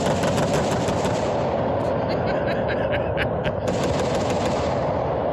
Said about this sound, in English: All right, enough with the guns. I didn't know it goes three times. I mean, yeah, let's chop that to one. Okay, one round of fire seems plentiful.